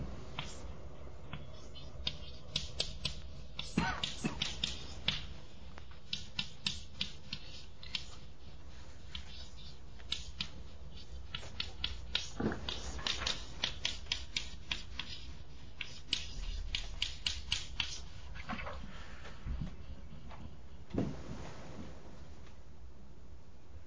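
Handwriting as someone writes out a mathematical formula: many short, sharp taps and scratchy strokes in irregular bursts, fairly faint over a steady background hiss.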